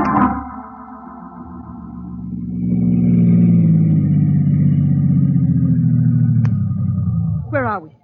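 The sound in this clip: Car driving sound effect in a radio drama: a low engine drone swells in loudness, holds steady for several seconds, then cuts off near the end.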